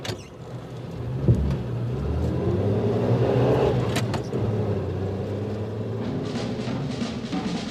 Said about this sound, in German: Jetzt fahren wir zum Bahnhof und wollen mal feststellen, ob der Professor auch dort gesehen wurde.